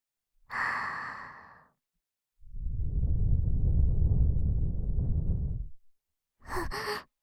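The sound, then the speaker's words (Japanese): Soft blowing into the ear makes a long, low, breathy rush of air lasting several seconds. A short breathy exhale comes before it and a brief breath after. “耳ふうふうしますね。”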